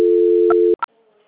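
A telephone tone sounds while a call is being transferred on a phone line: a loud, steady, mid-pitched tone holds for under a second, then cuts off and is followed by short beeps.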